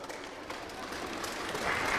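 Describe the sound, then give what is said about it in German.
An orchestra applauds children in a dense, even patter of clapping that grows slightly louder toward the end. “Bitte mal einen Beifall vom Orchester für die Kinder.”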